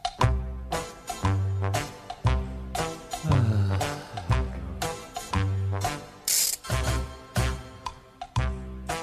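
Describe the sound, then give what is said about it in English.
A show jingle of instrumental music with punchy rhythmic chords over a deep, steady bass beat, playing on its own without talk. “You're going to crack open the jingle? Yes.”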